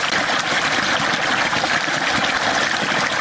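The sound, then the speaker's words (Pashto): Machine-pumped groundwater rushes out for irrigating farm fields in a Kandahar district, a steady, loud, unbroken gushing roar with no talk. “د کښتونو لپاره دا اوبه د مځکې له تل څخه راایستل کیږي.”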